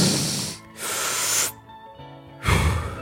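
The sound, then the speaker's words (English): A person breathes for a calming exercise: two loud, airy inhales one after the other, then a short pause and one forceful, breathy exhale. “Notice I did two inhales, one exhale.”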